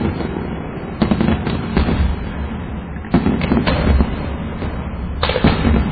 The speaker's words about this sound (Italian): Il tizio sta accendendo la carica della batteria di 30 missili e scappa. L'ha acceso con la sigaretta. Ecco, ora sono sparati uno dopo l'altro.